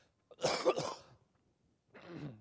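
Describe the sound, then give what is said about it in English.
Coughing during a Bible lesson: a loud, harsh burst of a couple of quick coughs, then a short pause and a softer final cough, with no talk. “Then I'll try to stop coughing in your ear.”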